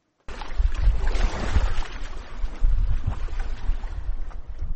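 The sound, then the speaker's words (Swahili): Wind blows off Lake Victoria along the shore at Dunga, Kisumu, in gusty, buffeting rushes over a low rumble from boats. It starts after a brief silence and stays loud throughout. “Kando kando ya ufukwe wa ziwa Victoria, eneo maarufu la Dunga, jimbo la Kisumu, upepo uvumao kutoka ziwa hili ni ishara ya mandhari bora yanayowavutia watalii katika jimbo hili.”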